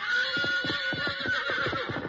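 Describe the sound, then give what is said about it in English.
A fiery three-year-old stallion neighs in a loud, sustained whinny with strong harmonics that waver throughout, over a steady rhythmic pulsing beneath. “Restraining bars and men who threw ropes were all the fiery three-year-old stallion had ever known.”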